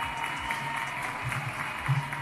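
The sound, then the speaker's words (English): Applause from a crowd, a steady wash of clapping with no distinct individual claps, fairly loud and continuous throughout. “I think we should all applaud when we talk about jobs”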